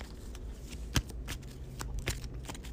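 A card is drawn from the encounter deck during a tabletop card game, a soft papery slide with a few light taps and flicks of cards over a quiet background.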